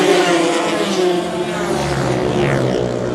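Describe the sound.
Racing motorbikes roar off the start, their overlapping engine notes forming a loud, sustained drone that stays dense and even throughout.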